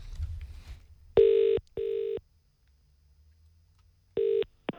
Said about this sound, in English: Okay, we're going to place a call now to the claw machine place.